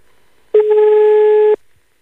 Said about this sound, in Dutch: Oké, ik heb nog een nummer, dus daar ga ik nu eventjes in tikken.